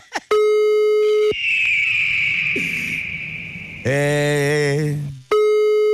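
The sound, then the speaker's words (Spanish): A telephone busy signal sounds after a number is dialled. A steady, buzzing tone plays at the start and returns at the end, with a whistling tone and a voice in between. “señor Reyes Santiago no nos va a contestar, Padre Santo, ¿eh? Estoy marcando en este...”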